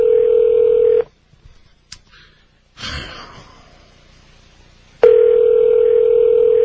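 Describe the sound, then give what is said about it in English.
Telephone dial tone on a call to a listeners' hotline: a steady, loud, even tone cuts out for a few seconds of near silence with brief clicks and soft breathy noise, then resumes unchanged. “Calling the Art Bell listeners hotline, whatever that is, from the Rocky Mountain News.”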